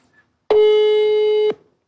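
A single telephone ringing tone sounds on a call, one steady, clear electronic tone lasting about a second, heard alone against silence.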